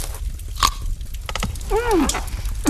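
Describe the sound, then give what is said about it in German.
Biting and chewing crunchy, spicy radishes gives a few crisp crunches with wet chewing between them, followed by a short voiced sound. “Voll lecker, die Radieschen. Ui. Und scharfe, leckere Radieschen.”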